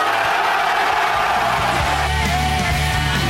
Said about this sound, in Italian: Che c'è da esultare? Perché esultano?